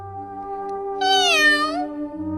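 A small white kitten meows once: a drawn-out, high, wavering mew that bends downward at its end, over steady sustained tones in the background.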